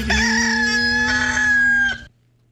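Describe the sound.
A rooster crows once: a loud, sustained, strongly harmonic call lasting about two seconds with a brief catch midway, then it cuts off to near silence.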